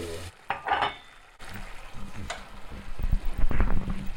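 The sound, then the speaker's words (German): Sizzling and stirring in a pan as vegetable broth is poured in to deglaze, heard as quiet, irregular hissing and scraping bursts with a short lull before the sizzle picks up again and grows busier. “Löschen das mit einer Gemüsebrühe ab.”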